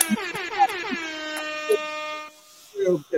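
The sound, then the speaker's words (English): An air horn sound effect blares in a loud, brassy blast that stutters briefly, then holds steady for about two seconds before cutting off; a short burst of speech follows. “So, air horn for that.”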